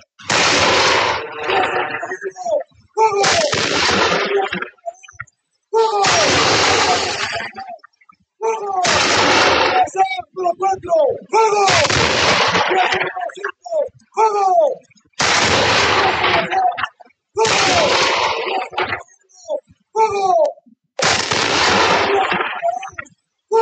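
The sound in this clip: Gunfire from a firing squad: many loud, sharp volleys, each lasting over a second, repeat at fairly regular intervals with short gaps between them. Voices are mixed in among the shots.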